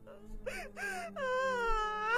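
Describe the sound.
A woman wails in grief over a coffin, first in two short, broken sobbing cries and then in a long, sustained, tonal wail that wavers in pitch and grows slightly louder toward the end.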